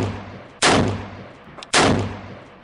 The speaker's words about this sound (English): every week we got to give you some shots down range.